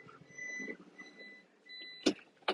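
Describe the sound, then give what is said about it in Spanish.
Car reversing into a parking spot with the handbrake applied: steady electronic beeps, then two sharp mechanical clicks near the end. “El... Marcha atrás. freno de mano. Un poquito más que me he pasado.”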